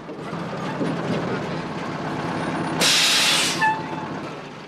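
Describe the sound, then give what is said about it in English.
A truck rumbles as it swings into a yard where other trucks are parked, then a single loud burst of air-brake hiss cuts in near the end before the engine drone resumes. “A short time later, the truck swings into a yard where other trucks are parked.”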